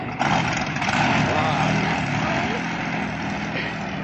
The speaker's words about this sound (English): Relax. There's nothing wrong with the motor. It's just cold, that's all.